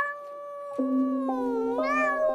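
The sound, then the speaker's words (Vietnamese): A stray cat meows inside a house, one long drawn-out cry that wavers in pitch and turns upward near the end, fairly soft and heard alone. “Tiếng mèo đột nhiên vang lên nhưng không rõ nó đang ở đâu.”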